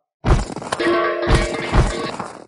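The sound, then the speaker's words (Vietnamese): Objects and immortal stones tumble out of a storage bracelet in a loud clattering spill, with a few heavy crashing impacts and a brief ringing tone between them. “Sau một hồi âm thanh rơi đồ, số tiên nguyên thạch còn nhiều hơn cả Phong Thiên Đô cùng Tiêu Tấn Hàn cộng lại”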